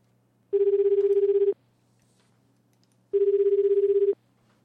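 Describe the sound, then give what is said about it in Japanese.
A telephone ringback tone sounds while a call is being placed: two buzzing rings of about one second each at a steady, mid pitch, separated by a roughly two-second silence. “それでは電話かけてみましょう。”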